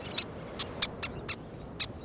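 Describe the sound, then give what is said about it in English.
Squeaky, toy-like calls of least terns on a big sandy beach: several short, high chirps spaced irregularly over a steady rushing background noise. “Sounding like squeaky toys, least terns dive in the surf, catching small fish.”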